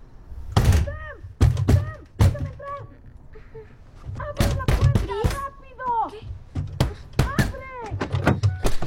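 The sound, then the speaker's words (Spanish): A fist bangs on a car door in a horror film. Several loud, hollow thumps come in irregular bursts, with voices speaking between and around them. “Chris golpea la puerta del auto y despierta a Sam.”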